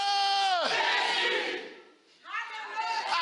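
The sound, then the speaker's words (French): A church audience cheers and shouts in acclamation with loud, sustained massed voices. A drawn-out cry drops away into a brief lull before another swell of cheering rises. “acclame Jésus. Alléluia. J'ai dit encore alléluia.”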